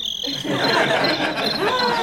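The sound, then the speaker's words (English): A cricket noisemaker toy chirping: a continuous high, trilling chirp pulsing rapidly and evenly, fairly loud, with people talking underneath. “I brought my my cricket noisemaker.”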